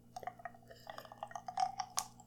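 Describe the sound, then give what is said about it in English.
A drink in a glass being handled and sipped, heard as faint, scattered clinks and small liquid sounds. A brighter clink stands out near the end, all quiet and without voices. “Also, sorry if you can hear my drink in the background. I gotta have a little bit of a refreshment.”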